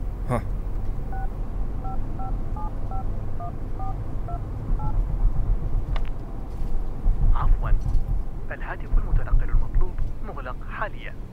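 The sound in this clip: A phone is dialled to place a call, its keypad beeping out a quick series of short, steady touch-tones, followed by voices talking over a low background hum.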